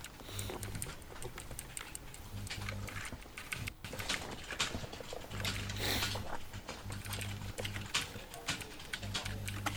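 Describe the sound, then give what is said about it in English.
Typing on a computer keyboard: many quick, irregular, faint clicks that run steadily throughout. “I can type this, you know?”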